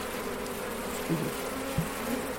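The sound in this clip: Honeybees buzz steadily around an open, unsmoked hive, forming a dense, continuous drone with a couple of brief louder bumps.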